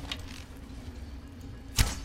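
An arrow is loosed from a bow in a video game, a single brief, sharp snap near the end that rises out of a quiet, low background hum.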